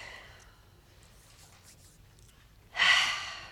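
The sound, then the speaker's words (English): A deep breath in a guided relaxation session, a single airy, rushing exhale rising suddenly out of near silence toward the end and fading slowly. “Take a couple of big, deep breaths.”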